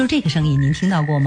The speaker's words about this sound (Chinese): 楼蝈呢，又叫做楼蛄，它们喜欢在夏天的傍晚发出咕咕的叫声，乍一听有点像青蛙叫，